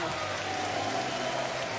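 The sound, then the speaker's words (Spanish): Applause from an audience at a live comedy show greeting a humorist, a soft, even patter of many hands clapping that holds steady throughout. “Un aplauso para Palito.”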